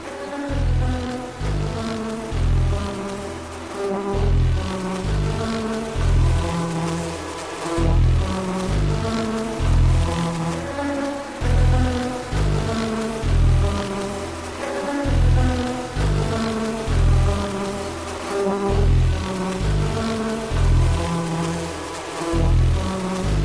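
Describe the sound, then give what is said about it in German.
Honeybees buzzing inside a beehive, recorded for music: dense, steady droning hum with a regular pulsing low rhythm that repeats throughout. “Sie haben sich Schutzkleidung übergezogen und sind mit Mikrofonen ins Bienenhaus gekrochen. Die gesammelten Töne haben sie in Musikstücke gepackt.”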